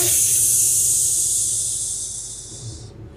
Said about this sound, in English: As it slows down, its brakes let out a great hiss.